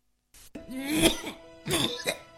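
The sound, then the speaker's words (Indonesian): A persistent, phlegmy cough feared to be tuberculosis, heard as two loud, wet, throaty bursts with a rough, voiced quality and a short pause between them. “Batuk gak berhenti-berhenti. Berdahak lagi.”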